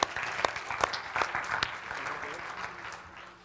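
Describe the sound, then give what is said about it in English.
A church audience applauds after a worship team's song. Several loud claps stand out at first, then the clapping thins and fades steadily toward the end. “Thanks so much. Let's give him a hand.”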